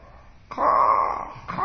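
A crow gives two harsh, nasal caws, the first long and drawn out, the second starting right after it ends and running to the close.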